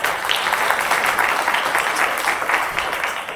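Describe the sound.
Dense audience applause welcomes a guest at a business school talk: a steady, loud wash of many hands clapping that holds at an even level throughout.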